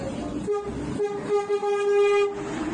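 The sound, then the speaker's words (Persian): A train horn sounds as a train enters Veresk station in Iran: sustained steady tonal blasts with short breaks, over a constant rumbling rail noise. “الان وارد ایستگاه ورسک شدیم و شما این پل زیبا را دارید می‌بینید.”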